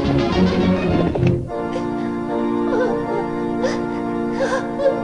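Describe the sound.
Crying and whimpering performed by a voice actor for a character in a Spanish-dubbed classic cartoon: a louder sob burst at the start, then soft, wavering whimpers over steady background music.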